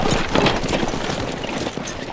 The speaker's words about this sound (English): Frank tied Goldie at the hitch rail while the wagon rattled off toward Langley's place.